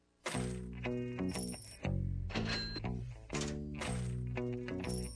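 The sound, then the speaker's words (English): Bright electronic chiming tones from a slot machine in Vegas ring out in a few loud bursts of stacked, steady pitches, with no sound of coins paying out. “I said that's the sound of Buhner at the slot machine in Vegas”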